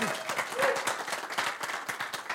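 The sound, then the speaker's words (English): Audience applause at a business presentation in Salt Lake City: many quick, dense claps form a steady, fairly faint patter, and a voice is briefly heard near the start. “I wanna give George a nice round of applause.”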